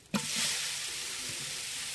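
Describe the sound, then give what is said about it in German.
Meat sizzles as it fries in sunflower oil in a pot, a sudden hissing onset followed by a steady, even crackle that continues alone throughout. “Das Sonnenblumenöl im Kessel siedet.”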